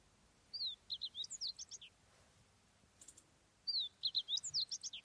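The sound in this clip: Small bird chirping in two quick bursts of high, bright tweets. A short pause between them holds a few faint notes. Fairly quiet, with no talk.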